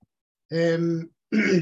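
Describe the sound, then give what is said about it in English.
Throat clearing by a person who vapes, in two short rough voiced bursts separated by a brief pause. “Sorry, just clearing my vape throat there.”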